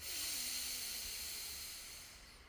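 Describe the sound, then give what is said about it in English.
A single deep breath drawn during a guided breathing exercise, heard as one long, loud, airy rush of breath that holds steady and then gradually fades toward the end. “Final time, deep breath in”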